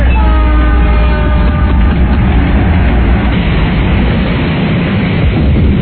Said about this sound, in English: Hold on, I need a train wreck sound of that. I think we just had an audible train wreck.